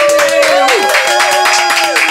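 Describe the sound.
Applause from a small studio audience: dense, steady clapping throughout, with a voice over it.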